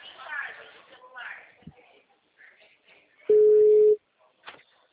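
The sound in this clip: A telephone ringback tone while calling a number back: a single steady, mid-pitched tone lasting under a second, following brief faint talk.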